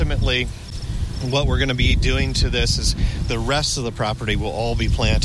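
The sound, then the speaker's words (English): Crickets chirp steadily on a grass-covered roof planted with native flowers, forbs and shrubs, a faint high continuous trill that runs beneath a person speaking throughout. “out on the roof right now, you can hear the crickets chirping”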